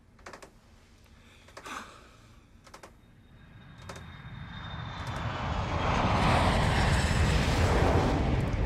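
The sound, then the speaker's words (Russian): Airplane engine at an airport, a broad roar that builds steadily from quiet to loud with a thin high whine running above it, preceded by a few faint clicks. “Аэропорт.”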